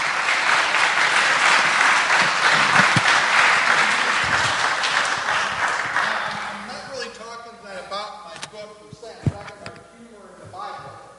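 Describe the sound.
An audience applauds to welcome a speaker at an evening talk. Loud, sustained clapping fades gradually over several seconds, then a person begins talking.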